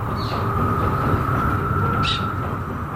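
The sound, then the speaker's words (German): A train rumbles through a cold, long night, a steady, even roar of rolling wheels and rail noise that holds at a constant loudness throughout. “Plötzlich hörte er das Geräusch eines Zuges näher kommen.”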